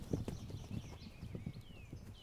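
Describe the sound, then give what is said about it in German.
Hoof clip-clop from a horse herd moving toward a newborn foal: many soft, irregular hoof thuds follow one another steadily at a moderate level throughout. “Noch einmal herrscht Bewegung. Die Herde will zum neugeborenen Fohlen, ist aber entspannter als zuvor.”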